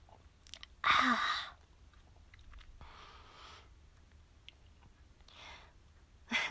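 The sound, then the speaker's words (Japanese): A person drinks a drink: one loud sip, then a few softer mouth and swallowing noises spread over several quiet seconds. “飲みます。”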